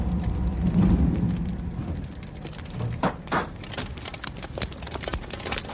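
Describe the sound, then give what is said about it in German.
A lone truck rattles along a country road at night with a steady, low engine rumble. Scattered sharp clicks and rattles grow denser toward the end. “Ettertshausen-Maria-Ort rattert einsam ein LKW durch die Nacht”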